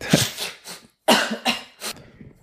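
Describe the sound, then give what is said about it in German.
A woman with a stubborn cold sneezes in several sharp, loud bursts of breathy noise separated by brief pauses, with no talk over them. “So, die Frau hat sich ausgenießt.”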